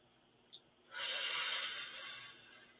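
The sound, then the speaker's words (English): A deep breath in and out, heard as one long, soft, airy whoosh that swells and then slowly fades. “So let's take a deep breath and then we're going to let it out.”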